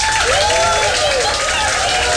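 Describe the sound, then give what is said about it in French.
An audience applauds in a dense, continuous wash of clapping that holds steady and loud for the whole clip. “Oui, ça va, ça va. Voilà tes applaudissements.”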